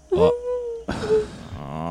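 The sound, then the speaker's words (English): A human voice imitates sobbing from a room, giving two drawn-out wailing moans. The first is a steady cry; the second is longer and wavers, trailing into shaky, breathy sobbing. “You hear sobbing coming from Kendra's room.”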